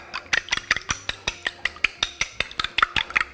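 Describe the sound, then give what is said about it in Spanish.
A small teaspoon beats an egg in a bowl, making many quick, light clinks and taps of metal against the bowl. The strikes come in a brisk, fairly regular rhythm throughout. “Voy a batir el huevo un poquito con la misma cucharita esta.”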